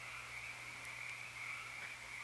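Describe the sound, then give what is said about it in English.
Frogs croaking in a dense night chorus, a steady, continuous high trill that holds level throughout with no voices. “for some of you, that may be hearing the chorus of the frogs. It's a beautiful sound,”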